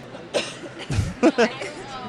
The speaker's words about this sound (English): Somebody brought me chips and I just ate a whole bunch of them. So I'm coughing.